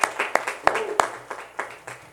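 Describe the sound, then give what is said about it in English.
Hand clapping in a church audience, with sharp claps falling in a fairly steady rhythm about three times a second over a low, soft background. “Let's give the Lord a hand clap. Praise, hallelujah.”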